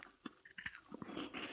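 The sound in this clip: Faint chewing of Walker's gluten-free pure butter shortbread cookies, with a few soft crunches and small mouth sounds in a brief burst.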